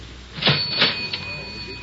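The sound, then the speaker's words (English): A few mechanical clunks and rattles from a cigarette vending machine being worked with change in a cafe after lunch, short bursts over a steady faint hum. “Do I have some change for the cigarette machine?”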